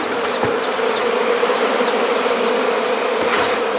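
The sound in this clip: Bees buzz around a honey-filled hive on a farm in a dense, steady drone that never pauses. The sound is loud and stands alone, with a few brief louder passes.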